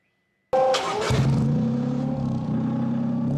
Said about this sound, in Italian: Quello che sentite è il rumore dello scarico di un'auto a idrogeno, un motore termico che usa l'idrogeno come combustibile